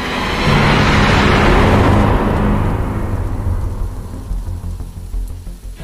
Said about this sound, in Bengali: তখনও ঝুপঝাপ করে বৃষ্টি পড়ছে